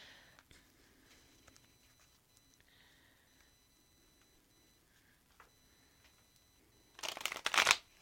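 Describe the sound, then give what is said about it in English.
Tarot cards shuffled in one quick, crisp burst of papery riffling near the end, after a long quiet stretch with only faint small clicks and taps. “Let's pull you a few cards.”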